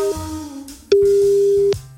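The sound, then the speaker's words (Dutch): Telephone ringback tone heard while calling someone: a steady mid-pitched electronic tone, first softer, then a louder sustained burst lasting under a second before cutting off. “Zullen we eens even iemand bellen?”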